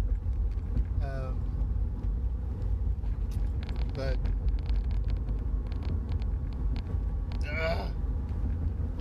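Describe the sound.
Steady low rumble of a car driving on the road, continuous and fairly loud for the whole clip, with a few brief higher tonal streaks over it.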